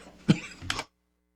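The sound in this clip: A cough and a throat clearing from someone with seasonal allergies: one sharp, short cough burst, then a longer, rougher throat-clearing rasp, both alone with no talk, ending in silence.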